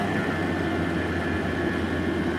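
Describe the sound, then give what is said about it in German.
Engine of a moped driving away, a steady, even drone with a low rumbling body that holds at constant loudness throughout with no other sounds. “Das Moped ist schon bald nicht mehr zu sehen.”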